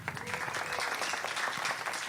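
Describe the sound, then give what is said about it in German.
Audience applause for five children at a gathering: a dense, steady patter of many hands clapping, fairly loud and even throughout, with no talk over it. “Ein Applaus für die fünf Kinder.”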